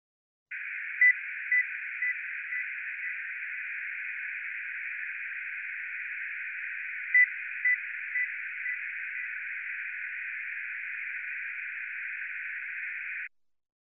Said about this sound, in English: Next, the noise has a bandwidth of 1000 Hz.